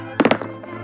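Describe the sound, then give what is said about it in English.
Dice rolling in a board game: a quick cluster of three sharp knocking thuds, followed by a softer tap and another hit at the end, over a low steady hum. “That's the sound of the dice rolling. It kind of sounds like cannon fire, so that's cool.”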